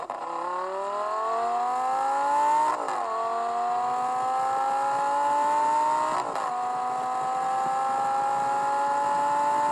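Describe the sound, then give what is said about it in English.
A car engine accelerates hard, its revving tone climbing steadily in pitch through three stretches broken by two quick gear changes, each shift dropping the pitch before it climbs again; loud and continuous, with no voices. “Yeah, there, you hear that? That's all the gear changing. So that all takes time.”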